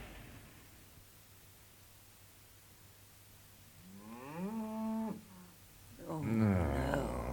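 Cows mooing at milking time: two long, low moos that rise and fall slightly, the second rougher and louder, over a faint steady hiss.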